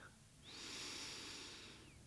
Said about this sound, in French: J'inspire et j'expire.